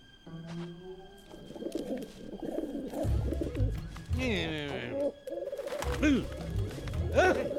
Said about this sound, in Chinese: 走开，走开！臭鸽子。